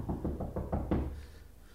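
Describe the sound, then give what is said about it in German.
Knocking on a door, a quick, evenly spaced series of several soft raps, with no voices. “Wer klopft? So auf die Türe rauscht, erwarte ich Unglück.”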